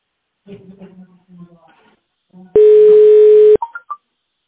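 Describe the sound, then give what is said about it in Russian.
Telephone line tones play while a call connects to an operator. A voice speaks briefly, then one loud, steady tone lasts about a second, followed by a few short, higher beeps. “Наберите добавочный номер или оставайтесь на линии для соединения с оператором.”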